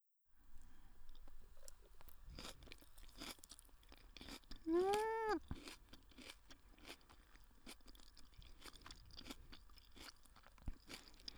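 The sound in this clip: Crunchy chewing of raw cabbage: many crisp, irregular crunches and bites, faint and heard alone without any talk.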